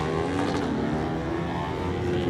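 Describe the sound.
A Kawasaki motorcycle's engine runs at the race start line with a steady, continuous harmonic drone, holding an even pitch and loudness throughout with no speech.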